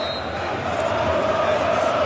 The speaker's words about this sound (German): weil hier wird gejubelt im Jahnstadion. Über 4000 Cottbusser sind jetzt auf dem Rasen. Im Einklang gemeinsam mit dem Präsidenten jubeln sie und umarmen sich alle gemeinsam.